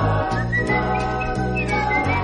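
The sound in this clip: A person whistles a bright, high tune over steady music with a regular beat. The melody moves in short phrases above the backing.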